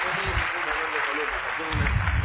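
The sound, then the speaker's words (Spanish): Applause from an audience during a church healing service, a dense, steady patter of clapping with voices mixed in that grows a little louder near the end. “Dame un fuerte aplauso, abuela. ¡Fuerte el aplauso a Jesús!”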